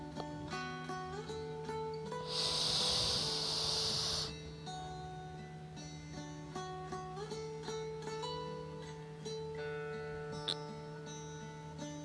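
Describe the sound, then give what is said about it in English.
A single breathy nasal inhale during a mantra breathing exercise, a soft hissing draw of about two seconds, over steady, sustained instrumental music. “Inhaling through the nose.”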